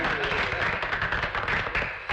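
Office staff clapping after an announcement of a party for a colleague's new job and wedding, a brisk, uneven run of many claps from a small group.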